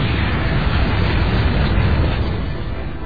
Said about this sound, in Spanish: Sobre la ciudad de Nagasaki. Nuevamente, un B-29 arroja la bomba atómica.